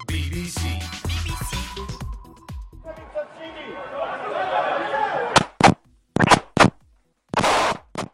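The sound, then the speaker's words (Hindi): Gunfire during an attack inside a synagogue in Jerusalem: after a stretch of confused, chaotic noise and crowd babble, several loud, sharp bursts of shots crack out in quick, uneven succession. “ये गोलियों की आवाज उस लम्हे की है जब दो फलस्तीनियों ने सिनेगॉग में दाखिल होकर चार अफराद को कत्ल कर दिया।”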